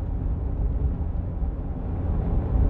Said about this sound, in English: I'm sorry if there's a little bit of air noise now. had to turn on my AC a little bit because my window's fogging up